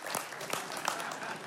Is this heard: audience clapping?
yes